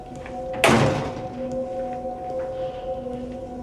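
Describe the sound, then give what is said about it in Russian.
A glass door at the top of a staircase, leading into a corridor toward an office, is opened with one sharp clattering thud that fades. A steady low hum runs underneath from start to finish. “подходит к стеклянной двери. Он открывает ее и входит в коридор, ведущий в кабинет.”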